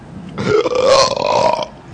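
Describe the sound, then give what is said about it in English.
A single long, rough belch swells in loudness and holds for about a second before trailing off. It is heard alone, with no talk around it. “Oh, good Christ, did I belch? All right. Right, I did.”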